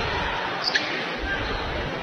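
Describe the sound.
A basketball is dribbled on the court during an Ashland women's basketball game: faint bounces under steady crowd noise.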